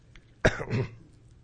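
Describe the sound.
A throat-clearing cough: one sharp cough is followed by a rougher, rumbling clear of the throat, then quiet.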